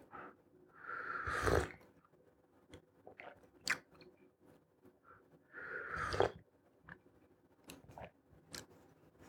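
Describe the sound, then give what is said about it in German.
Tea being sipped and tasted: two noisy slurping sips, each a short airy rush, with faint clicks and small mouth sounds scattered between them against near silence. “So, jetzt habe ich noch diesen Tee hier. Mal probieren.”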